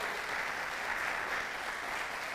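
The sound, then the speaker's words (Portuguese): Audience applause during a talk: dense, steady clapping from a crowd that holds at an even, fairly loud level throughout, with no voices over it. “aplauda aí, vai, anima eu aí.”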